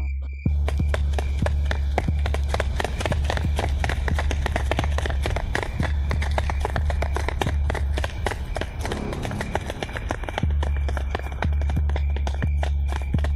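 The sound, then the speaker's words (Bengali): Running footsteps as a person dashes forward at night carrying a torch, a rapid, many-step patter that stays loud and steady from start to finish over a low rumble. “বেশি দূর যেতে হলো না খানিকটা এগোতে দেখা গেল বিশ্বমামা torch light জ্বালিয়ে দৌড়ে আসছে”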